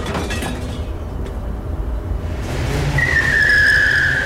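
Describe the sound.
A car driving off fast, a steady loud road roar with a high squealing, whistle-like tone entering partway through and holding to the end.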